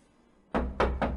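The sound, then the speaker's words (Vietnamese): Three sharp knocks on the door of a courtyard gate, coming quickly and fairly evenly spaced after a quiet moment, each a loud, hard thump. “cuối cùng mới dám gõ cửa”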